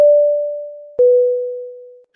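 Ringback tone of an outgoing telephone call: a steady, mid-pitched tone sounds twice, each roughly one second long and fading slightly, with nothing else heard.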